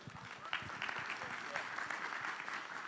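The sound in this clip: An audience at a church applauds to welcome a guest speaker: a fairly faint, steady wash of clapping that holds evenly throughout with no break.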